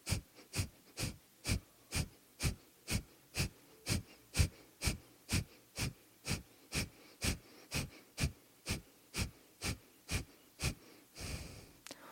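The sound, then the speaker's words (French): Rapid, evenly spaced forceful exhalations pumped from the abdomen during a yoga breathing exercise done in a car: about twenty sharp, breathy puffs in a steady rhythm, ending with one longer, softer breath. “on va faire que des expires actifs en faisant aller l'abdomen comme ça. Donc, on inspire, on expire, et ensuite, on y va.”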